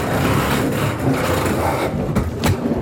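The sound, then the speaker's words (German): Crates are driven up a ramp, producing a loud, steady mechanical rumble with a few sharper knocks toward the end. “jetzt können wir einfach mal die Kisten einfach hochfahren. Passt, fahren wir rauf über die Rampe.”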